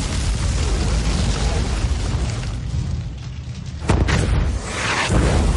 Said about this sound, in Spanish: Las llamas alcanzan un horno y lo encienden.